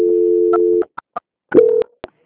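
Telephone tones during a call transfer: a steady low tone holds for almost a second, then a few short beeps follow before a second brief steady tone and a final beep.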